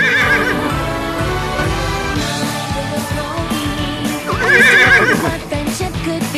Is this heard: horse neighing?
yes